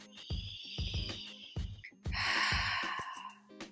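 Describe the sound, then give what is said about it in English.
A deep inhaled breath, a long airy rush, set against a steady pulsing rhythm of low tonal beats that runs before and after it. “Take a breath with me.”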